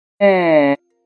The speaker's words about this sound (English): The sound you just heard was produced from a 3D-printed vocal tract and electronic larynx.